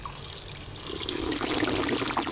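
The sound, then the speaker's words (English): Water runs from the spigot of a public drinking fountain in Rome as a steady splashing stream that grows a little louder after the first second. “the water shoots out of the little hole at the top and creates this arc of water, kind of like a drinking fountain.”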